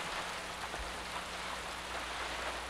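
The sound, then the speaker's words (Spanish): Steady rain falls in an even, dense hiss with faint scattered drop patter and no pauses. No voices are heard. “No deja de llover.”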